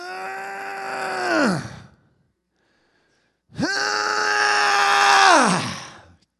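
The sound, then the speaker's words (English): A man's voice imitates apple trees in an orchard groaning, with two long, loud groans separated by a pause. The second groan runs longer, and each one sags and drops in pitch at the end. “When's the last time you were walking in an orchard, an apple orchard, and you heard the trees groaning? They were like,”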